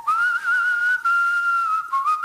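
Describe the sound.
A woman whistles a tune alone, clear and pure-toned, holding long sustained notes on a single melodic line with a few brief breaks and small pitch slides.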